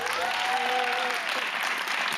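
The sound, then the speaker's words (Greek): Steady applause from an audience celebrating a host's 50th birthday, a dense, even wash of clapping that carries on without a break from start to finish. “Χειροκρότημα για το 50!”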